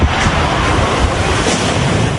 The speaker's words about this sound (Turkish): Pakistan'ı toz fırtınası vurdu.